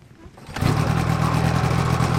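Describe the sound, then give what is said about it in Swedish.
A small two-cylinder 65 hp engine runs at full throttle. After a quiet moment it surges in abruptly and holds a loud, steady, rough drone to the end. “motorn är igång med full fräs”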